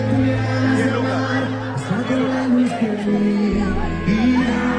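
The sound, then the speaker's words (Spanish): Audience cheering, shouting and chattering at a live band performance, a dense, continuous roar of voices that holds at a steady level. “Además, escucha el público.”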